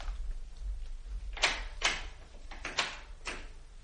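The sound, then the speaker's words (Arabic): A bathroom door closes, heard as a few soft thuds and latch clicks over a low, steady background hum. “يدخل دورة المياه ويغلق عليه الباب.”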